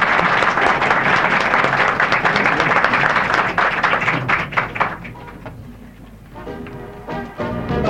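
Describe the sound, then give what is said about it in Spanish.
Studio audience applause for a folk group on a 1972 radio program in Córdoba, Argentina. Loud, dense clapping thins and fades over the second half, leaving scattered claps. “Los despedimos con nuestro cariñoso, fervoroso y merecido aplauso.”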